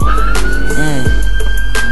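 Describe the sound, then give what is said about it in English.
A police siren wails in a steady, high, slightly rising tone, set against a loud, low rumbling backdrop that runs through the whole clip. “when sirens go off.”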